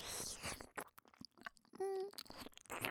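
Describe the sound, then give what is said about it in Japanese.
Crunchy food is bitten and chewed in many brisk, crackling crunches, irregular in rhythm and fairly faint, with short pauses between. “お、すっごくおいしい、うん、カリカリカリカリ”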